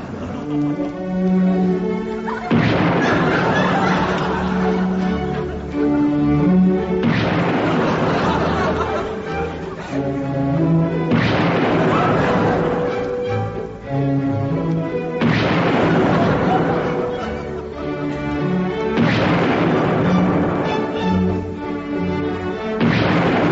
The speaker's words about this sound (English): now over to the exploding version of the Blue Danube.